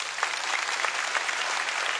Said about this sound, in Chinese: 我说一句，哎，给他们掌声吧。